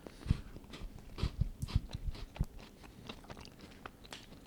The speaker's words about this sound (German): Also wir essen hier von der Marke Napoli Dragé-Kekse à la Creme Caramel mit der Auszeichnung Kekse des Jahres.